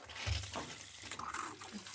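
Warm water poured onto snow, a steady splashing trickle with soft gurgles, fairly faint and running throughout.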